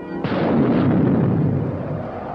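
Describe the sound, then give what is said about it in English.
A deep roaring explosion, the sound effect for a new planet's explosive birth in outer space, bursts in sharply after a brief lead-in and then rumbles on loud and steady without fading. “The explosive birth of a strange new world, the planet Nova, millions of miles away in the eerie silence of outer space.”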